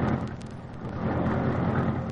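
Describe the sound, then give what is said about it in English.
Car engine roaring into life: the Green Hornet's sleek, streamlined, superpowered car Black Beauty starting up, giving a loud, steady, full-bodied rumble that holds for the whole moment. “Britt Reed pressed a button. The great car roared into life.”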